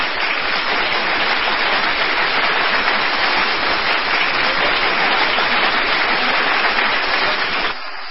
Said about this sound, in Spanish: Un aplauso, por favor, un aplauso.